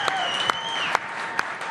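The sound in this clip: Brief burst of audience applause, a steady dense wash of clapping with whistles running through it and a few sharper claps standing out.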